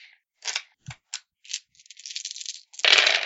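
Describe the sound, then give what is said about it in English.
Six physical dice rolled during a tabletop role-playing game: a few sharp separate clicks, then a quick clattering rattle and a louder final burst of tumbling noise. “You guys and your physical dice.”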